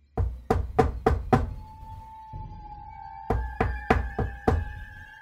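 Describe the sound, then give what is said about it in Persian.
Someone knocks on a door: five sharp knocks in quick, even succession, a pause, then another five, over a soft, sustained musical drone. “ناگهان شخصی به در کوبید”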